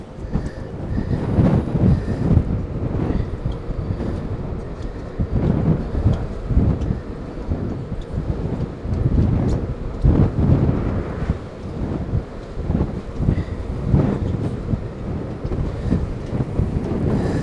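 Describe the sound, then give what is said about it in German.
Strong wind buffets the microphone, mixed with the low rumbling engine of a nearby ferry, a loud, dense, continuous roar that swells and dips slightly throughout. “Ich weiß nicht, ob man das jetzt hört bei dem ganzen Wind. Deswegen ist auch das Geräusch nebenan von der Fähre.”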